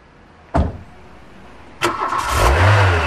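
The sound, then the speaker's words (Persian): A car engine starts up to be driven fast. Two sharp thumps come first, and the second leads straight into the engine catching with a loud rev that settles into a strong, low drone. “روز به سرعت به طرف خانه دویی رانندگی کردم”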